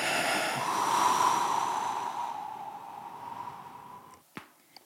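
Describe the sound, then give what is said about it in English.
A deep inhale and exhale during a guided breathing moment before a poem reading. A long airy breath swells and then slowly fades over about four seconds, followed by a couple of brief soft clicks. “I'm going to invite everyone to take a nice deep inhale. Exhale.”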